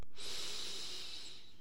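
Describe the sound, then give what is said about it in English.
A single long, deep breath is drawn in through the nose, heard as a steady, airy hiss that begins abruptly and holds evenly to the end, fairly faint and with no talk. “One deep breath in to the nose.”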